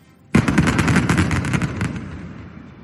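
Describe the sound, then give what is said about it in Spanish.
Explosive charges bring down the coke battery chimneys in Avilés: a sudden loud blast breaks into a rapid series of cracking detonations over a deep rumbling roar that slowly fades away. “Ese es el sonido de ese momento que ya forma parte de la historia de Avilés, el derribo de esas chimeneas que presidían la entrada a la ciudad, un derribo que ahora está bajo la lupa de la UCO.”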